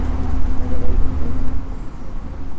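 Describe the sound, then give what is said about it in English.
Motor rumble of a work truck or rail car passing beside a canal: a steady, heavy low-pitched drone that swells slightly and then eases. “Actually, maybe that was just the train car that went by, the working truck.”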